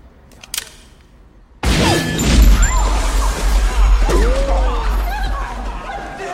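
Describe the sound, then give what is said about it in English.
A gunshot ricocheting off an alien spaceship's shield in a film: a sudden loud crack, then whining ricochet sweeps over a noisy clamor with voices. “It bounces off the shield, ricochets.”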